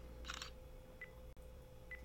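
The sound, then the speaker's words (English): A phone camera takes a picture: a faint, short shutter-like burst, followed by two brief high beeps spaced nearly a second apart. “It actually just took that picture of my phone.”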